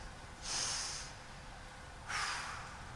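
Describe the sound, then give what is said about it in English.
A full deep breath taken during a quiet mindfulness exercise, heard as two soft, airy rushes of breath with a pause between them, with no talking. “So, this is how it works. We're going to count 20 breaths. Okay? And this, so it's a breath, it's a full breath.”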